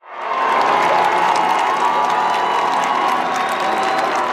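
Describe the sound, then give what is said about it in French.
A large crowd of faithful cheers and applauds the pope at an open-air mass in Metz, France, a dense, loud, sustained roar of clapping and shouting that swells in quickly and holds steady, with no single voice standing out. “Le pape Léon XIV, encore une fois, acclamé.”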